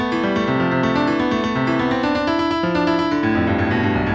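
Synthesized musical notes turn weekly U.S. coal production in the 1980s into sound at ten weeks per second: a loud, continuous run of overlapping sustained tones that keep stepping to new pitches.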